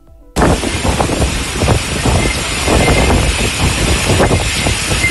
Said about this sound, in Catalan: I el que senten és el so de la tempesta d'ahir al Coll